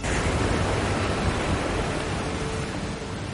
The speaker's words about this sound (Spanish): Desde el puente contempla la fuerza de las aguas.